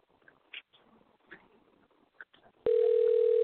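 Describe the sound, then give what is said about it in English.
A steady telephone tone sounds while a call is placed, starting abruptly after faint clicks and rustling and holding level for about a second until the end. “He's dialing him right now.”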